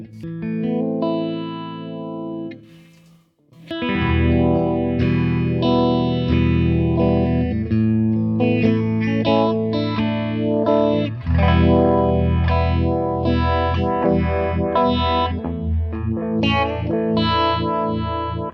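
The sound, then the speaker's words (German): Electric guitar chords pass through a Uni-Vibe modulation pedal on its Through setting, giving a pulsing, swirling, wobbling tone. A short pause near the start is followed by continuous strummed playing, with no voices. “ein Univibe. Ja, auch mit Drive. Gibt es auch mit Through und mit Crunch. Was haben wir gerade eingestellt? Ja, wir machen erstmal Through, würde ich sagen.”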